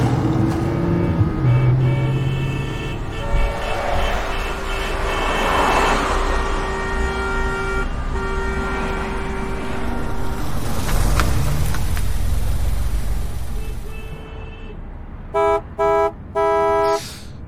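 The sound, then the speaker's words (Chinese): Car horns honk in a traffic jam: sustained tonal blares ring out over a rumble of engines, then three short sharp beeps close the sequence, with no voices. “还没到下班时间，怎么就堵车了？”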